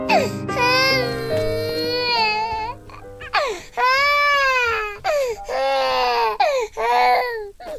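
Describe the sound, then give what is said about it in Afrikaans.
Infant crying in several long, high wailing bursts with short breaks between them, loud and strained, with no other sounds around it. “asseblief hou op huil. Ek weet nie wat jy wil hê nie.”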